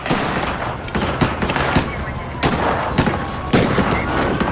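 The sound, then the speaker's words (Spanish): Gunfire from a shootout between police and a gunman, with many sharp, loud shots cracking in an irregular series over continuous noise. “salió por detrás del contenedor y comenzó a disparar al tirador desde el otro lado”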